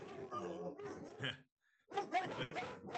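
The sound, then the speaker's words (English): Dog barking and yipping in bursts, fairly faint, with a brief pause before another run of barks. “hold on, let me get my dog. You're good, I'm sorry. Sorry about that.”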